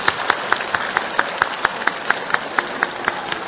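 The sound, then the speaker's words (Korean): Steady rhythmic clapping from a church audience, many sharp claps in an even, quick beat at a consistent loudness, with no voices over them. “먼저 옆에 사람 마주 보시고 힘차게 박수해 주시고”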